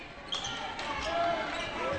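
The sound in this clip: A basketball is dribbled across the court during a game, its bounces blending into play-by-play talk and steady crowd noise.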